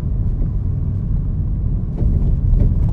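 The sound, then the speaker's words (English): A car drives along with a steady low engine and road rumble, growing slightly louder partway through, with no voices. “I'm gonna get back to driving here check in with you later.”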